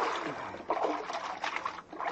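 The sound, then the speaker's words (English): A paddle pulls a boat through water, making soft splashing and trickling sounds. The splashes come in a few gentle pulses, fairly faint and continuous, with no voices. “All right, now lean on that paddle.”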